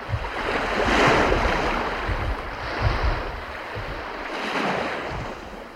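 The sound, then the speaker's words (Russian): Waves on Lake Ladoga wash in at the foot of a lighthouse on a sunny autumn day, a continuous rushing surf that swells and ebbs in slow surges, mixed with wind noise and no voices. “Это голос легендарной Ладоги. Я услышала его солнечным осенним днем у подножья Осиновецкого маяка.”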